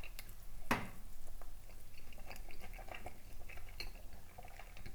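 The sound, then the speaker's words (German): Faint, wet smacking and chewing while eating a slightly cooled potato ball with chives and onion and a half-liquid centre. One sharp click comes early, then soft squishy mouth sounds continue without talk. “Entschuldigung, wenn ich jetzt so schmatze.”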